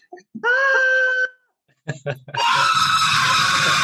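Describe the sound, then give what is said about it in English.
A man screams in a Christmas comedy film scene: a loud, held cry, then a few short sharp bursts and a long, harsh, loud scream that runs to the end. “Except that was Marv, I think, screaming there.”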